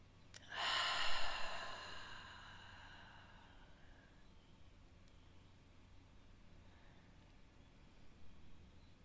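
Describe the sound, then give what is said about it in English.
A long, deep breath drawn in: one strong breathy rush that swells and then trails off into a faint hiss, heard on its own without talk. “Taking another long, deep breath in here.”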